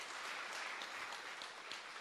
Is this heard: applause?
yes